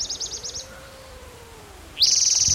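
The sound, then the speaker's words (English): A warbler sings two high, rapid phrases: a quick run of chirpy repeated notes, then after a pause a louder, buzzy trill. “National Warbler singing.”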